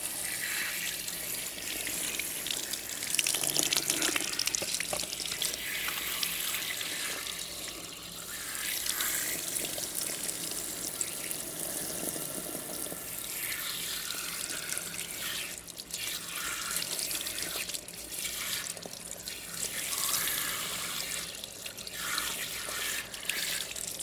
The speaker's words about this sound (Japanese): お湯、熱くない？大丈夫？